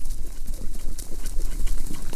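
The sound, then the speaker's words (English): Horses galloping in a charging wave across snow toward battle: many rapid, overlapping hoof clip-clops pounding in a dense, continuous rhythm, loud and rumbling. “obscured by the approaching wave of horses”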